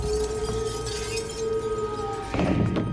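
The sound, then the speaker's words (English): A magic mirror breaking apart into glass shards. A brief, bright shattering burst comes near the end, after a steady humming tone. “He slams it to the ground, smashing the stone to blue powder. As he does, the mirror breaks apart and the glass shards disappear into darkness.”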